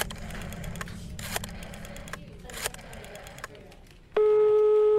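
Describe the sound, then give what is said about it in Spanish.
A telephone line sounds while a call to the coroner is being placed. A few short, noisy bursts come first, and then a steady, loud electronic tone sets in near the end. “Voy a llamar al forense.”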